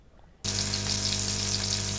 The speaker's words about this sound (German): was machst du denn da in der Pfanne? Ich mach bloß ein paar Buletten warm für Fischchen.